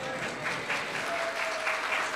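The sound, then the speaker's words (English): Audience applause for a birthday celebration, a steady wash of many hands clapping at moderate volume for about two seconds, even and unbroken with no voices standing out. “And clap for her now.”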